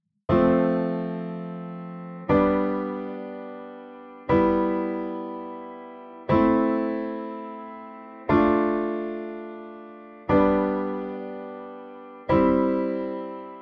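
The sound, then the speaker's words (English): Seven evenly spaced sustained chords play the Royal Road progression, each struck cleanly and slowly decaying before the next. The last three are D minor, G major and C major, resolving into the key of C major. “What you just heard was the Royal Road progression resolve into the key of C major. Those extra chords were D minor, G major, and C major, or the scale degrees minor 2, major 5, and major 1.”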